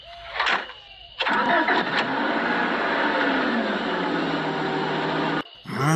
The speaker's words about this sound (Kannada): ಈಗಂತರೂ car start ಆಯ್ತು.